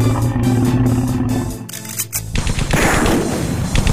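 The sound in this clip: Gunfire in a fight against encephalomorph creatures: a few sharp, loud shots crack over a low droning hum, then the sound gives way to a dense, noisy stretch of crackling.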